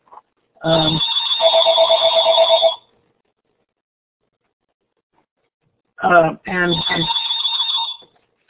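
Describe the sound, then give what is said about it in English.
A mobile phone rings in two bursts separated by a pause of a few seconds. Each burst is a bright, warbling electronic ringtone with a sustained high tone, loud and alone. “That is my phone ringing.”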